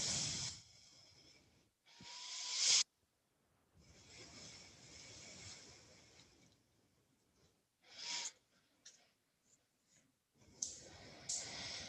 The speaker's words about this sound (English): We'll have three good breaths here. In through your nose, out through your nose, slow and steady.